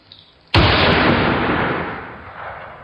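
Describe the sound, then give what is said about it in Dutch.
A single loud gunshot fired near houses, with a sharp crack at onset followed by a long, broad, roaring decay that fades over about two seconds, heard alone. “Er wordt geschoten.”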